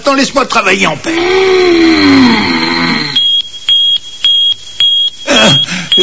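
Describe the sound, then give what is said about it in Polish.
An alarm goes off inside a spaceship in an animated scene: a run of short, high, evenly spaced electronic beeps follows a drawn-out vocal wail, with a voice returning at the end. “Włączył się alarm. Ktoś jest we wnętrzu statku.”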